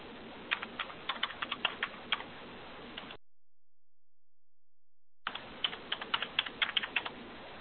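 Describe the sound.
Clicky typing on a computer keyboard as a consumer ID and date of birth are entered into a form. Many quick keystrokes come in two bursts, separated by a stretch of complete silence.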